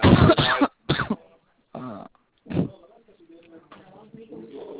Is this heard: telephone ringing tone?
no